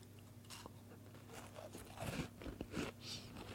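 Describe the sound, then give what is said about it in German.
Faint crunching bites and chewing on vanilla crescent cookies served with coffee and tea at a Christmas baking tasting. A few soft, crisp crunches cluster toward the latter half. “Und jetzt machen wir die Verkostung, würde ich vorschlagen. Zu Kaffee und Tee gibt es jetzt Kekse. Wollen wir mal probieren. Die Vanillekipferl.”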